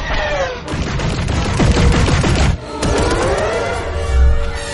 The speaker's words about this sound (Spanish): Finn dispara a los cazas.